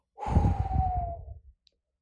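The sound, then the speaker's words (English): A deep breath is released in one long, breathy sigh, heard alone, with a faint voiced tone that slowly drops in pitch before the breath trails off into silence. “that deep breath, the inhale and the exhale has the ability to, to just relax our shoulders, right?”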